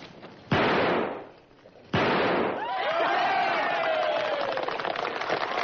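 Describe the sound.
Two sharp gunshots ring out in a shooting match. Each is a loud crack with a decaying tail, and after the second comes a sustained noisy wash with wavering tones.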